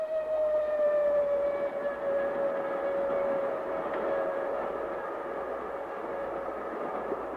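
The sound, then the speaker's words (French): A train passing at night, a steady broad rumble and roar with a long sustained whistle-like tone and faint higher overtones running through it, loud and unbroken throughout. “À part ces trains qui continueront à passer toute la nuit, bientôt tout dormira.”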